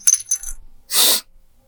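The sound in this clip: Coins jingle inside a small coin-purse sized bag, with a few light metallic clinks followed by a short, louder rustling clatter as the bag is shaken. The sound is brief and heard alone.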